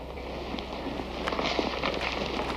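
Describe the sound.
Soft footsteps climbing stairs, a loose series of light thuds and scuffs that grows a little busier halfway through, over a steady low hum.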